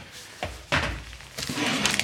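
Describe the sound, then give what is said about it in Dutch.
Plastic tubs of fudge are opened: a few short knocks and dull thuds, with lid snaps and a scrape between them, moderately loud and alone. “Ik ga allemaal bakken open. Oh, één bak.”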